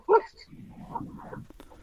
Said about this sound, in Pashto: دا خو سپی غاپی ها